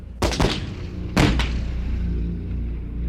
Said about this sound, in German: durch einen Zündstromübertrager wird dann der Strom übertragen, der Panzer schießt.